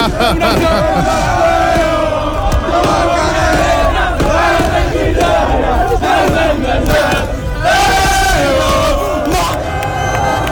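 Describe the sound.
A loud crowd celebrates on the Kanaalstraat in Utrecht, a dense, continuous roar of shouting and chanting voices that stays at full intensity throughout.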